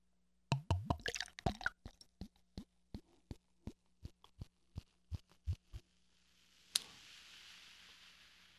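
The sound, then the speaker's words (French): Pale ale poured from a bottle into a glass, heard as a faint, steady run of many quick, evenly spaced glugging plops, then a short fizzing hiss that slowly fades. “Et je vais la déboucher et je vais vous en parler. Oh oui. Et puis, ben, je verse ça dans le verre.”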